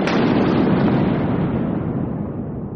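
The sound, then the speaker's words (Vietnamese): Thunder rumbling across the sky: one loud, deep, continuous roar with a broad, rough texture that slowly fades over a few seconds. “trong không trung vang lên một tiếng sấm rền”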